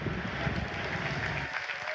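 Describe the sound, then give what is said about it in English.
A church audience applauds after a pastor's introduction, a dense, steady wash of clapping that stops abruptly about three-quarters of the way through, leaving a quieter room tone. “So please give a warm MLC welcome to Pastor Pat Butcher.”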